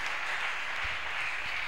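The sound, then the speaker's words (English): A church audience claps their hands in praise during a sermon, a dense, steady patter of applause that holds evenly for the whole moment with no voices over it. “Give the Lord a mighty hand clap.”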